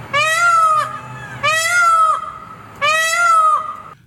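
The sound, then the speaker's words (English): Peacock calls ring out in downtown Fort Pierce: three loud, high, wailing cries with a cat-like, nasal tone, each lasting under a second and spaced evenly apart with short gaps of quiet between them. “That sound is a peacock, and some people say there are hundreds of them around here.”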